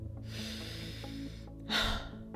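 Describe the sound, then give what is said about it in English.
A quick, breathy inhale drawn in during a guided rapid-breathing exercise, a short rushing burst of air near the end over a low steady hum. “And now breathe in and release.”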